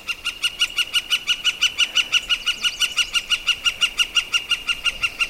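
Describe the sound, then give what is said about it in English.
A flicker, a kind of woodpecker, calls alone in a long, rapid series of evenly spaced, sharp, high notes, repeated about five times a second at a steady, fairly loud level. “That's the sound of a bird, a woodpecker, known as a flicker.”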